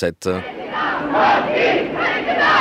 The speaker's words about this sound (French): La chaleur de ces acclamations vous donne le ton de la joie des Luxembourgeois